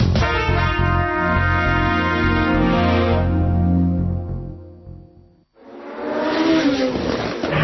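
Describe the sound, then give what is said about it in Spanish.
A race car engine roars, entering the pits for a tyre change: a loud, steady, buzzing drone that fades and drops out briefly, then returns as a second harsh burst of engine noise. “Vuelta entrada en boxes para cambio de neumáticos.”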